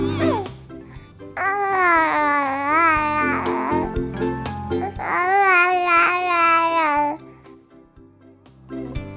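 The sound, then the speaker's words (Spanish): An English baby babbles in an archive recording. A short sound comes first, then two long, sing-song vocal strings with bright, wavering pitch. “Escucharemos ahora a un bebé inglés, gracias a archivos que hemos encontrado de la BBC.”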